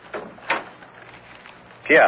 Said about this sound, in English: You may close the door behind you.